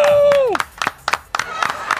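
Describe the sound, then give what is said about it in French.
An audience cheering wildly: a loud whoop that falls in pitch, followed by many irregular, sharp claps scattered through the rest. “Le public est en délire! Un public quelle en folie. Folie!”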